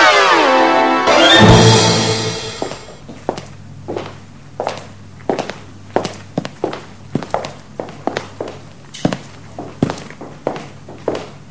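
Footsteps climbing a long staircase, a steady series of many distinct, evenly spaced thuds following a brief tonal sound at the start.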